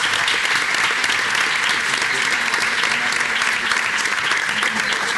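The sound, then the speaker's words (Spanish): A group gives strong applause for a guest, with many hands clapping in a thick, continuous wash that stays loud and even for about five seconds. “vamos a darle también un aplauso fuerte”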